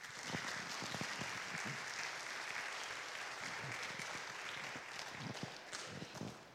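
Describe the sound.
Audience applause welcoming a speaker, a dense, steady wash of clapping from many hands that holds at an even level for the whole stretch.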